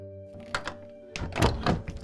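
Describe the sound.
A door closes with a dull thunk: a soft knock followed by a heavier cluster of muffled thuds, over a faint steady tone.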